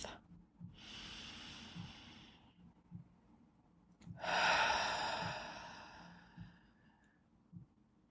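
A deep cleansing breath, heard as a soft, drawn-out inhale followed after a short pause by a louder, longer breathy exhale.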